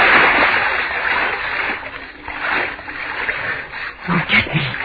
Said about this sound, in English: Swim. I can swim. Swim in the dark.